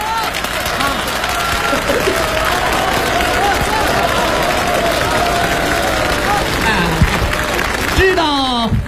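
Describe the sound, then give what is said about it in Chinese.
Audience applause, a dense and steady wash of clapping that holds at an even loudness for about eight seconds before a voice begins speaking at the end. “为什么鼓掌吗？”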